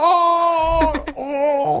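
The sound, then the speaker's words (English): A nasal, wavering whine stands in for an old Acura car whining as it starts. The tone holds steady, breaks up briefly in the middle, then returns at a lower pitch before dropping lower still at the end, all within two seconds. “That's basically my old Acura. That's what it sounded like anyway. Yeah. It would whine to a start for sure.”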